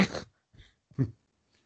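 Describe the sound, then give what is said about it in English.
A dog snoring gives three short, breathy, raspy snorts separated by silence, with a faint trace of another at the end. The sound is soft overall. “Apologize if you hear my dog snoring in the background.”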